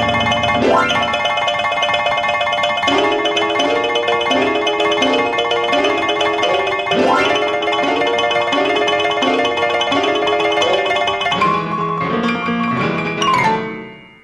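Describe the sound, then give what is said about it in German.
Player piano music from a grand piano driven by punched paper rolls and pneumatic air pressure: fast, mechanically repeating note figures, bright and loud throughout, with a denser flurry near the end before it cuts off. “Lochstreifen-Klaviermusik von George Antheil, auch das ein Stück, das es in Schicht 1 an diesem Abend zu hören gibt.”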